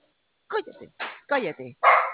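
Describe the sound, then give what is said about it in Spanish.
A dog barks in a quick series of sharp, mid-pitched barks, loud against an otherwise silent background. “cállese perro”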